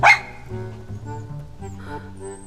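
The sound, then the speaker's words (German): A small light brown dog gives a single short, sharp bark at the very start, then a quiet, steady tonal background continues. “Der Hund von François. Er ist tatsächlich so komisch, wie Honorine ihn beschrieben hat. Kleiner Hund, den ihm Magnoc geschenkt hat.”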